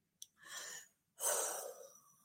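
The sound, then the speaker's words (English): A deep breath: a quick sniff, then a half-second inhale, a brief pause and a longer, louder airy exhale that slowly fades out. “take a nice deep breath for me”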